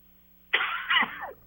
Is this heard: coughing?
yes